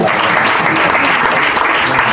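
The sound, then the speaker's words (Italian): Dense, loud audience applause for a group of musicians, an even wash of many hands clapping at once that holds steady from start to end without pause. “Poi guardate che bel sorriso e questo sì, un applauso.”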